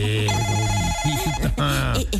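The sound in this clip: A telephone rings with a steady electronic tone, bright and sustained, while a voice speaks over it.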